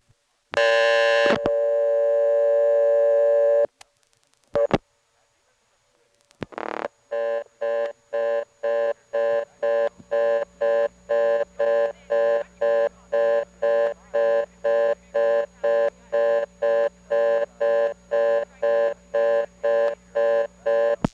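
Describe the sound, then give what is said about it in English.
Electromechanical telephone exchange with a second selector blocked after dialing digits: a steady tone, a few sharp switching clicks, then a long run of rapid, evenly pulsed busy tone. “I dial 1 digit, and that cuts into a second selector. Then I dial another digit, and it is blocked.”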